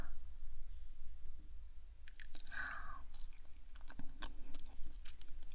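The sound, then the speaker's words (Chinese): Chewing on a bite of food from a banquet of over three hundred dishes: soft crunchy clicks and wet smacks begin after about two seconds and continue over a steady low background hum. “当然是只挑本宫喜欢的吃一口”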